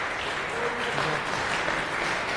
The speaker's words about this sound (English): And a round of applause, please, for Remy